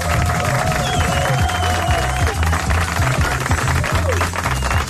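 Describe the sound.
Applause from a studio audience at the opening of a live show, with dense, continuous clapping blended with crowd noise throughout.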